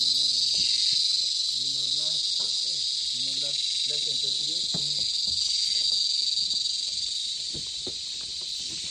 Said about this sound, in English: The son of the cicada. The natural jungle orchestra.